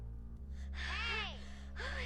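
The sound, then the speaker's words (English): Three children lie gasping for breath on a lawn, heard as a couple of quiet, breathy gasps with a rising and falling pitch, set over a faint steady hum. “The three kids lie gasping on the lawn.”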